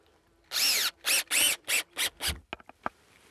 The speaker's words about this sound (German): Mal sehen, ob das klappt. Bin ich ja mal gespannt. Ich schraube das mal an jetzt.